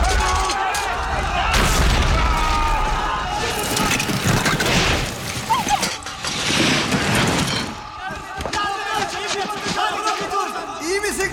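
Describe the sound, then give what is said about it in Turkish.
Ice cracking and breaking apart: loud, rumbling booms and harsh crashing bursts that swell, break off and return over several seconds, set in a dense, noisy mix. “Ses ne? Buz kırılıyor! Koşun!”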